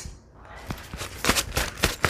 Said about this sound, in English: I'm going to grab a pile of papers. Hang on.